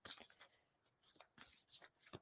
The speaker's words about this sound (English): what I'll do is I'll go quiet for a moment and shuffle the cards.